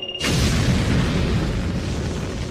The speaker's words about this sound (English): Fire retro rockets. Aye, aye, Professor. Good. Now fire those more modern-looking rockets.